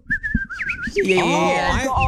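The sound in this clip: Someone whistles an imitation of native New Zealand birdsong: high, clear whistled notes that break into fluttering, swooping warbles, sounding fairly loud and lively.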